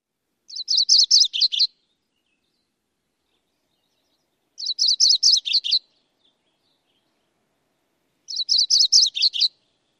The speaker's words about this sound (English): A mnemonic for this bird is tree, tree, tree, tree, sweet, sweet, or cheery, cheery, cheery, cheery, cheery, cheery.